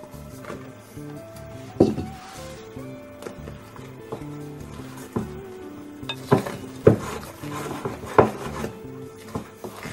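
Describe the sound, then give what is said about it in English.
Flour and baking powder batter being mixed in a bowl, making irregular soft scrapes and a few sharper clicks and knocks against the bowl. Nobody speaks. “So just add part of it and mix.”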